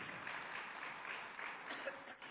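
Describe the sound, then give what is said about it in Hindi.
Audience applause at a spiritual talk, the crowd clapping for themselves; a soft, even wash of many hands clapping at a steady level. “एक बार जोरदार तालियां बजाइए अपने लिए।”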